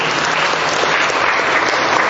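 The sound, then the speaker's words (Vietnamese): Steady applause from an audience inside a church, a dense, even wash of many hands clapping at once, loud and continuous with no voices standing out. “Rồi hoan hô một tràng pháo tay cho những người muốn lên thiên đàng.”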